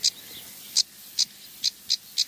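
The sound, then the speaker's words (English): A house sparrow chirps six times, each note short, bright and high-pitched, spaced irregularly and fairly faint over a quiet background hiss. “and house sparrows. One just flew straight across, is now singing as well.”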